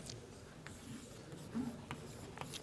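Writing on a board during a lecture: faint, scratchy strokes in short bursts, quiet against a soft background hiss.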